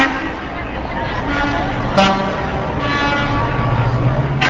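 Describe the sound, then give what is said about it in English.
Truck horns honk at the start of the Milwaukee Labor Parade, several sustained, overlapping blasts sounding over a steady noisy street background with voices beneath. “And so the truck horn symphony that started today's Milwaukee Labor Parade”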